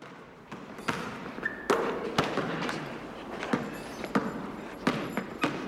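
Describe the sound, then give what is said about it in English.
A basketball bouncing in a gym while players shoot hoops: many irregular, hollow thumps at moderate volume over a faint background din. “as we cut to the gym where Kenny is shooting some hoops with Pierce, as Napper approaches with a proposition.”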